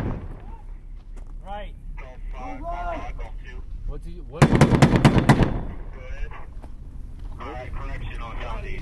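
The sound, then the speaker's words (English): A burst of rapid automatic gunfire cuts in loudly for about a second during fighting between Marines and Taliban fighters in the town of Dahana. Men talk steadily before and after the burst. “Bullets, mortars, and rockets rain down in periodic bursts on the troops.”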